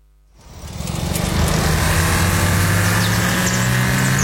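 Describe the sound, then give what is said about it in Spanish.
Engine of an Audi Q5 with a 2.0 TFSI mild hybrid motor. After a brief quiet start it swells over about a second into a loud, steady drone with low humming tones, and no voices are heard. “El nuevo Audi Q5, con motor 2.0 TFSI Mild Hybrid, fluye con precisión y eficiencia.”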